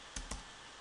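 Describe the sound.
Two crisp clicks from a computer keyboard come as a command is typed at a command line, a quick pair of keystrokes followed by quiet.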